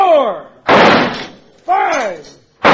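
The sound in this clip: Gunshots fired at thrown bottles: a few sharp, loud cracks with short decaying tails, alternating with a man speaking between the shots.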